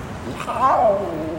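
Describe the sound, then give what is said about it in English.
A big cat cub's short wavering cry, from cubs huddled together in a large cage in the dark in Punjab, rising briefly over low background noise. “Now, it's quite dark here, and all the cubs are huddled together.”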